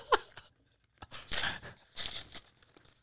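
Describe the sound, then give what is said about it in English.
An envelope holding a Christmas card and a check is ripped open: a few short, crackly tearing bursts of paper separated by quiet gaps, with no talk. “I'm sorry for ripping the envelope.”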